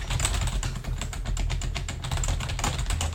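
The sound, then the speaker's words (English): Rapid, steady typing on a computer keyboard while text is entered into spreadsheet cells, a continuous stream of quick key clicks over a constant low hum. “When you type it, I'm just gonna type a whole bunch of things here.”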